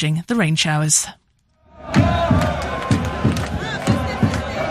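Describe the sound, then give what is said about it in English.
Iraq football fans celebrate in a stadium in Philadelphia after a storm-delayed World Cup match lost to France. A voice speaks briefly, then after a short silence a loud crowd roars and chants with rhythmic thumps and claps. “That is the sound of Iraq fans celebrating”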